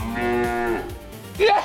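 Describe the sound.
A cow moos once in a long, loud, low call with rich harmonics, heard alone with a brief rougher sound near the end.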